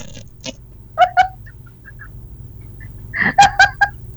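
Chicken clucking: short, bright, nasal calls, a pair early on, then a quicker burst of several near the end, over a faint low hum with quiet pauses between.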